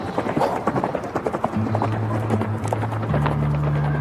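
Hooves clip-clop as a horse is ridden, a quick, steady run of loud hoof beats that continues throughout, with a low steady hum joining partway through.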